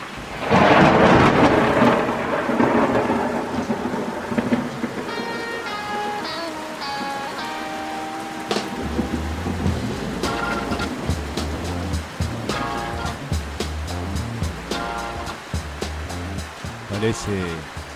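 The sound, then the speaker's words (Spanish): Thunder booms over steady rain, starting with a loud, heavy crash that rolls into deep rumbling, while dense rain patters continuously underneath. “Parece que se vino la lluvia, ¿eh? Se vino nomás.”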